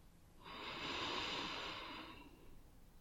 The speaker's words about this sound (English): For now, though, I need you to take a deep breath, okay? Just in.